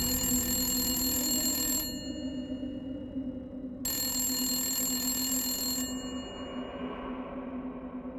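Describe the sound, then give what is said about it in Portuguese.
A telephone rings twice, each ring a long, bright, bell-like trill lasting about two seconds, separated by a pause of similar length, with a low steady hum underneath throughout. “Certo dia, ainda na primavera, em fevereiro de 1985, o chefe de polícia Jerry recebe uma ligação.”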